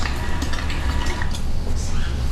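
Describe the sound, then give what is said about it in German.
A meat grinder at a master butcher's coarsely minces beef and bacon, giving a steady low mechanical rumble with continuous squelching and clattering noise throughout. “Fleisch und Speck werden zuerst im Fleischwolf grob zerkleinert. Da oben kommt's rein. Und wenn es unten rauskommt, sieht es so aus.”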